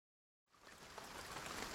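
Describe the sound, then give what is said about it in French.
Rain falls as a faint, even hiss that starts abruptly after a short silence and continues steadily to the end. “Il pleut, il pleut! J'adore la pluie!”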